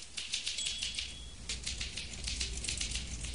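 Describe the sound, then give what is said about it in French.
Someone typing on a typewriter: a faint, rapid, continuous patter of many small mechanical clicks. “Elle tape à la machine.”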